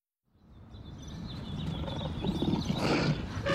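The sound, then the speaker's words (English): Zoo animals roar in a rough, growling rumble that fades in and swells steadily louder, with a few faint bird chirps above it. “We're here at the zoo!”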